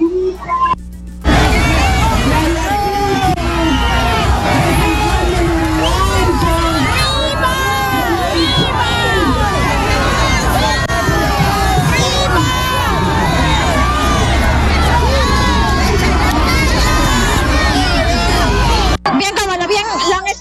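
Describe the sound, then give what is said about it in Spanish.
A crowd of party supporters cheers and shouts at an outdoor political rally held around a mobile stage. Loud, continuous babble with shouts and whoops runs unbroken for most of the stretch, then cuts off abruptly. “hay un estrado móvil en los exteriores, justamente porque la señora Keiko Fujimori está brindando unos saludos para todos los simpatizantes del partido. Escuchemos.”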